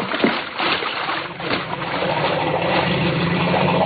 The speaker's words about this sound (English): I'll get the motor and head back downstream.